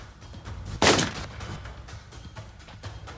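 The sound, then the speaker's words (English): A single sharp gunshot from a fast-draw gunslinger's revolver cracks out loudly, followed by softer faint clicks and low rumble in the background. “Ladies and gentlemen, the fastest gun in the world right here.”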